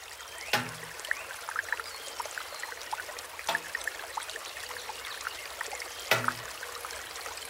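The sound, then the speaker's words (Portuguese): Water from a bamboo shishi odoshi pours into a garden pond, a quiet continuous trickle broken by three sharp, hollow knocks of bamboo striking stone, evenly spaced apart. “Um tubo de bambu despeja a água na lagoa e bate ritmadamente contra um chão de pedra.”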